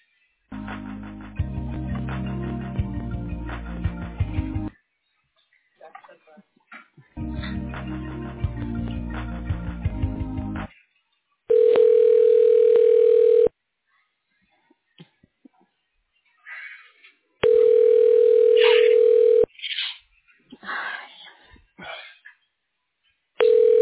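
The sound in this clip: An office phone call being transferred to a voicemail line: stretches of muffled, tonal line audio, then two long, steady, mid-pitched ringing tones separated by a gap with faint scattered sounds.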